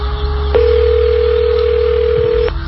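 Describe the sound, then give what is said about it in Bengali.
A telephone tone sounds as a call is placed: a single steady, mid-pitched tone held for about two seconds, loud over a low background rumble. “এই নাও phone করলাম, কিন্তু কথা তুমি বলবে।”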